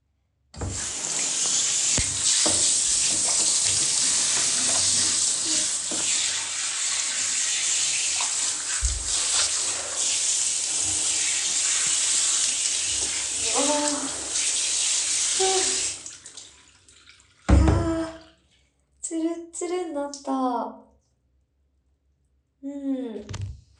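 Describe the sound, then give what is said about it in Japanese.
Tap water runs while something is rinsed, a steady, fairly loud rushing flow lasting about sixteen seconds before it stops, followed by a few short breathy vocal sounds. “はいはい、できた、ちょっともう一回流しときます。”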